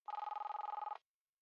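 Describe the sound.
A telephone gives one short trilling ring of about a second, made of rapid warbling pulses, and then silence follows.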